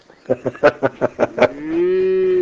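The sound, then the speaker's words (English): Cattle on a Montana ranch moo: a rapid run of about seven short rhythmic pulses leads into one long, steady, low-pitched moo that holds to the end. “See there, I got all the cows moved already.”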